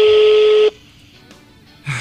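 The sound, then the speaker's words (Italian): Telephone keypad tones as a number from the phone book is dialed: a loud, steady tone lasting over half a second, a quiet pause, then another tone beginning. “Cosa della rubrica, dai, faccio il numero, vai.”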